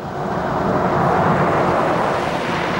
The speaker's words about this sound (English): Later, a man gets out of a Volvo. Keys are in it. Jack pulls up behind it.